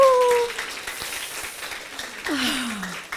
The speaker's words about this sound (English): And now, stand up and let's give a big hand for Dr. Rita Marie Lascalzo.